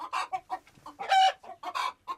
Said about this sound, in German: Ah, Hühnergackern, da sind überall Eier drin.